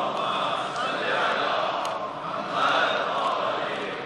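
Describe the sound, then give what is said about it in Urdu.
A crowd loudly chants durood, the blessing on Muhammad, at a devotional gathering. The massed voices rise in two broad swells with a brief dip between them. “جتنے ایک درود بھیج دیں محمد والے محمد پر بلند آواز سے.”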